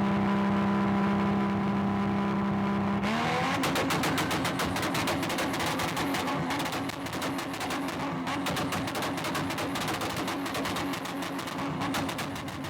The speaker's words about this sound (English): Two-stepping it. What do you mean? He has a tune on it to do that. He has it tuned up enough to where it can shoot fire like that and not have to blow his motor.